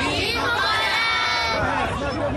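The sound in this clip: Crowd babble from people gathered at a mosque for Eid prayer: many voices chatter and overlap in a steady, continuous hubbub.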